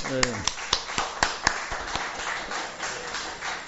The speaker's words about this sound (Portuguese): vamos bater palma, você tem que bater palma.